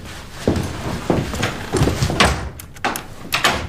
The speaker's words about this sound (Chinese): 你锁门干啥呀？